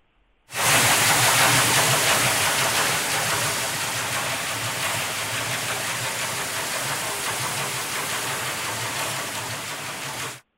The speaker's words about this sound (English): This is a sound of a ship traveling, a shipping sound. So imagine a whale in the ocean.